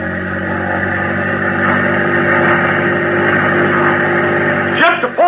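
Boat engine revving at full throttle: a loud, steady droning roar with a dense, buzzing tone that holds evenly throughout.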